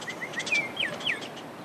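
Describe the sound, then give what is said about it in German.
Birds chirp beside a remote mountain road in New Mexico, giving quick, thin, high tweets and short sweeping calls in irregular bursts, fairly faint against a quiet background. “Vögel zwitschern, Grillen zirpen.”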